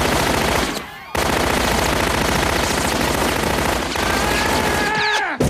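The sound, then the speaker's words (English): Rapid machine gun fire from an old-fashioned machine gun shot up inside a bar, heard as dense, sustained bursts of loud, crackling shots that break off briefly twice before resuming. “Everyone takes cover as he decimates the bar, shooting at the Borg until they drop to the floor.”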